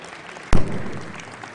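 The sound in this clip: Applause welcoming first-time students at a college chapel service, opening with one sharp, loud clap-like hit followed by a brief spread of softer scattered clapping.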